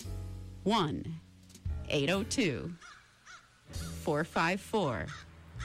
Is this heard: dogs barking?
no